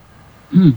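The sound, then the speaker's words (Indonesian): A single short cough breaks a near-silent stretch, a brief, fairly loud throaty burst late in the moment. “Tiba-tiba ada batuk siapa ini?”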